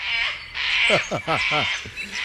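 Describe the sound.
Kookaburra call: a quick run of harmonic, downward-sliding squawking notes over a steady hiss, loud and fairly even, with a shorter note trailing at the end.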